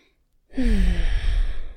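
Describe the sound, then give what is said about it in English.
A deep breath is drawn in and slowly released with a sigh-like exhale during a relaxation exercise, after a short silence, then a steady breathy rush that holds for over a second. “Okay, stop there, relax your hands, take a nice deep breath.”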